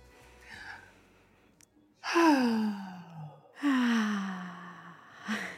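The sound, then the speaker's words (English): Two long, audible breaths, each a deep, voiced, sighing exhale that starts strong and trails off with a falling tone, separated by a short pause. “Join me in starting with a nice, deep breath.”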